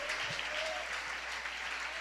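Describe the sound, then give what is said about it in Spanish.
A church audience applauds during an evening worship service. Many hands clap together in a faint, steady wash that holds an even level from start to end. “démosle un aplauso en esta hermosa noche a Jesús.”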